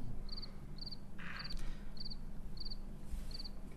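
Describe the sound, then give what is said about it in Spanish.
Cricket chirping: six short, high, pulsed chirps repeat at an even, steady rhythm over a low, constant background hum. “La principal cláusula de mi contrato: no hablo sin un grillo atrás.”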